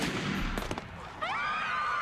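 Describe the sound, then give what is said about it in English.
A sniper's gunshot comes as a quick cluster of sharp, fairly faint cracks, followed by a quieter stretch and then a separate tonal sound. “A white sniper has shot Malik and crosses his name off a checklist”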